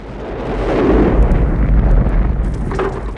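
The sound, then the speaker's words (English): A gate blown up by a shoulder-fired multi-rocket launcher gives a heavy explosion: a deep, loud, rumbling blast that swells and holds for a few seconds, with sharper crackling bursts near the end. “he hoists the multi-rocket launcher onto his shoulder. And blows them sky high. Then he blows up the gate.”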